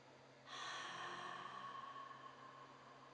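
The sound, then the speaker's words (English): A slow, faintly voiced exhale through an open mouth with the jaw dropped, as a breath of release. The soft breathy rush starts abruptly and fades gradually over about two and a half seconds. “And let's exhale through an open mouth, drop the jaw, a little bit of sound, breath of release.”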